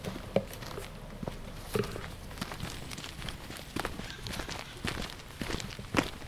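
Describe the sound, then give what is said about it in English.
Footsteps of two people hiking through a forest on a warm late-September morning, a steady series of many soft, crunching footfalls at an irregular walking pace, with no talking. “It's a warm mid-morning in late September. My partner and I are hiking in the forest of Nising Mark State Park.”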